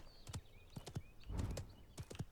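Horse hoofbeats while riding in a video game, crisp clip-clop strikes in small rhythmic groups with a brief rushing noise in the middle, fairly faint and without talk.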